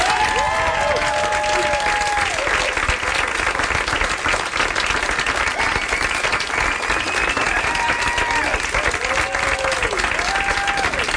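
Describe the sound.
Audience applause and cheering welcoming the band the Shins on stage at a live radio concert, a dense steady roar of clapping with a few cheers rising above it throughout.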